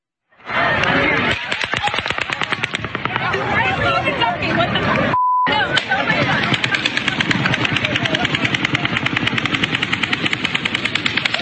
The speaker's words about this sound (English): So in clip 12, this is multiple shooters in Las Vegas.